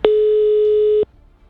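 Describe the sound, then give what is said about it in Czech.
A single steady telephone line tone sounds as a number is dialed out before any ringing starts: one loud, mid-pitched continuous beep lasting about a second, then it cuts off into near quiet. “Zatím teda nám to ani nezvoní z nějakého důvodu, ale pořád vytáčí.”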